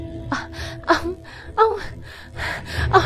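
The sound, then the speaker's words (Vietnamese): A woman gasps and pants for breath after a hand is pulled from her mouth, with a rapid series of sharp, breathy sobbing gasps and hiccuping inhales that come in uneven bursts throughout. “Cô nấc lên và thở hổn hển. Cô nói không ra hơi.”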